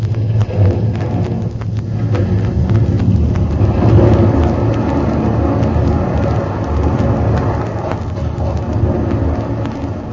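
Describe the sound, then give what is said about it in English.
Roaring crash of a good 30 feet of a South Sea island breaking off and plunging into the ocean, a radio-drama effect: a loud, dense, continuous rumble with churning noise that swells and holds for the whole stretch. “A good 30 feet of the island breaking off and crashing into the ocean.”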